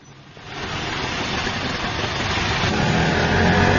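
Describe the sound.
An auto-rickshaw engine running late at night, a steady rough mid-pitched drone that rises slightly in level after the first half second and holds continuously, with no voices over it.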